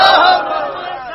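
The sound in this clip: A crowd at a religious gathering shouts a chant in unison in answer to the takbir call: one loud, massed vocal burst that quickly drops to a softer, sustained tail of voices.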